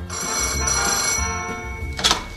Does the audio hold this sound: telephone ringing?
yes